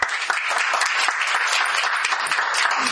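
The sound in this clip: Audience applause welcoming a professor to the stage before a lecture: dense, steady clapping from many hands at an even level throughout, with no talk over it.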